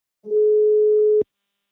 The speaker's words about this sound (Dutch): Ik ga hem bellen.